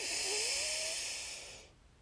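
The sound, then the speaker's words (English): A deep breath in through the nose during a guided breathing exercise: one long, loud, airy inhale that fades out near the end, followed by brief quiet. “Deep breath in.”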